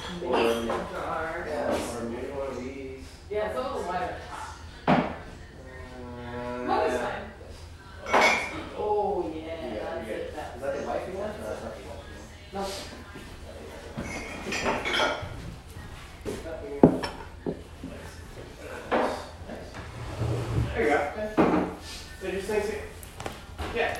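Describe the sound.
Bowls, dishes and a jar are taken out of a cupboard, making scattered clinks and clatters of crockery and cutlery throughout, under ongoing conversation.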